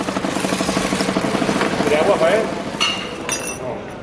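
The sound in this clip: Knives are sharpened on an engine-driven rotating grinding wheel in Seville, each blade moved to and fro across the stone. A steady motor hum pulses rhythmically under bright metallic scraping and light clinks.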